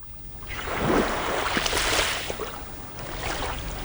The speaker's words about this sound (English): That is the sound of Atwater Beach in Milwaukee's North Shore suburb of Shorewood. A strip of sand separates land from the blue waters of Lake Michigan.